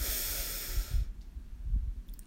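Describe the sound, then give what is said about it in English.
A deep breath during a guided breathing exercise: a strong, airy rush of breath lasting about a second, then quieter, low, uneven breath noise, with no talk. “So breathe in deeply, hold at the top, and release with a loud exhale.”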